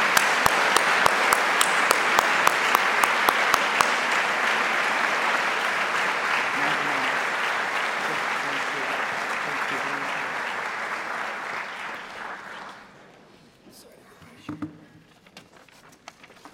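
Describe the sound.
Audience applause welcoming parents at a morning presentation on hazing: a few sharp early claps, then a dense, steady wash of clapping that lasts about twelve seconds before stopping abruptly, leaving faint scattered sounds.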